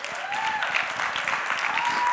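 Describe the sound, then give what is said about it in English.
An audience applauds with steady, moderate clapping that holds an even level for about two seconds, without talk over it. “Oh, that was a 15% applause there.”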